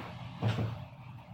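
A door swings shut with a brief, dull thud in two quick parts, faint against quiet background noise.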